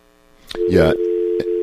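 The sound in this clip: A telephone line tone sounds after a caller drops off a phone call. A short burst of voice comes first, then a steady, even tone holds to the end.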